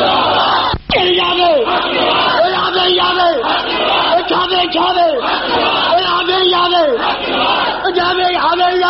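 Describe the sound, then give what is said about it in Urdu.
Crowd chanting the takbir slogan in response to a call, many voices in unison, loud and continuous, with rising and falling chanted phrases repeating in a steady rhythm and a brief sharp click near the start. “آپ تائید کرتے ہیں کہ یہ دن آنا چاہیے؟ ہاتھ کھڑے کر کے نعرہ تکبیر”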